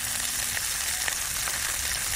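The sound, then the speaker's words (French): Sausages and onions sizzle in a pan heated by a mirror solar cooker. The frying is a steady, quiet hiss and crackle with occasional soft pops, alone without voices. “En 2 minutes, la lumière du soleil chauffe tellement la casserole que les saucisses et les oignons se mettent à grésiller.”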